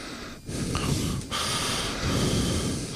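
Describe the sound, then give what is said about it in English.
Heavy breathing blows straight into a microphone held too close, producing loud, rough, hissing puffs that rise and fall over a few breaths. No one talks. “we have been made aware that occasionally we breathe into the microphone. We've got it too close, like this.”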